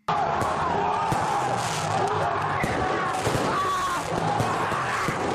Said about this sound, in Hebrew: מה שאתה שומע זה אוהדים מתפרים יורים זיקוקים ושלל פירוטכניקות באנשי משטרה